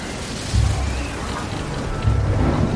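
Rain and thunder from a storm at sea: a steady hiss of rain with two low, rolling swells of thunder rising out of it.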